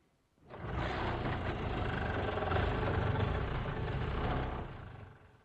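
A vehicle engine starts abruptly into a loud, steady running drone with a rough low rumble, holds evenly for several seconds, then fades away, with no voices.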